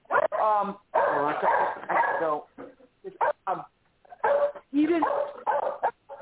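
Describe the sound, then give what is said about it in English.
Dogs bark in short, intermittent bursts, mixed in with a person talking throughout. “Sorry, my dogs are acting like a bunch of tards.”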